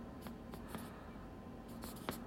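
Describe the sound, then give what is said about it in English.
Handwriting as someone jots a short note, faint scratchy pen strokes in a few brief bursts over a low steady background. “So I could, I'll just write improve mobile nav,”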